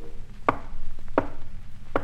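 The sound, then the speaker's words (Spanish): Knocks on a house door at nightfall: three separate raps at a steady, unhurried spacing. Each is a short, hard hit with a low thud, and there is no talk between them. “Con 20 mulos y aparentando un mercader, a la puerta de Alí llamaba al anochecer.”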